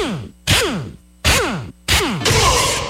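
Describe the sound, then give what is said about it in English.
An air wrench fires in three short, loud bursts, each ending in a falling whine as it spins down, then runs into a longer sustained rattling blast. “This 3 seconds brought to you by an air wrench.”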